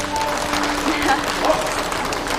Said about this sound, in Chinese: 让我们用掌声恭喜欧阳经理个人业务断层第一，当之无愧的年度销冠。